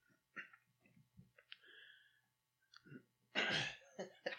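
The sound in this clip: A cough among a few short throat and breath noises, ending in a single loud, harsh burst near the end, heard alone without talk.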